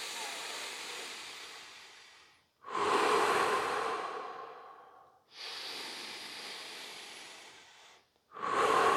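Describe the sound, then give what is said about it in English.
Deep, rhythmic breathing in a guided breathing exercise, inhaling through the nose and exhaling through the mouth: a few long, loud, airy breaths following one another with barely a pause, each swelling quickly then tapering off. “First breath into the belly, into the chest, and letting go. Exhale through the mouth, inhale through the nose.”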